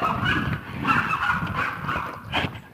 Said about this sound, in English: dogs. Can you hear them? How could you miss them?